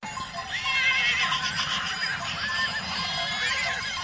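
Wild horses neighing in Amil, Spain, during an annual round-up where locals drive them down from the mountains; several high, wavering whinnies overlap and carry on through the whole clip over a steady rough background.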